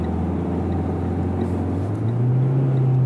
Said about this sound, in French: Il faut arrêter d'accélérer quand je change de vitesse, c'est pour ça que ça fait du bruit.